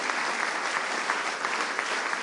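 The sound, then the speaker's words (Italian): A church audience in Italy applauds during a worship service, producing a brisk, steady clatter of many hands at an even level throughout. “Un applauso al Signore per questo fratello, per la sua sposa.”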